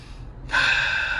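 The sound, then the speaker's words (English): A person takes a sudden, sharp breath in. It is a single quick gasp followed by steady, breathy airflow, heard alone without talk. “I had to take a breath.”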